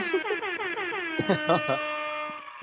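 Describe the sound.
A squeeze horn sounds as a sound effect during a livestream, a sustained buzzy tone that warbles at first and then holds steady to the end, with people talking over it.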